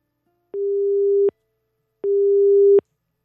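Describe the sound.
A telephone busy tone sounds after a dropped call: two loud, steady, mid-pitched beeps, each lasting under a second and separated by a short silence.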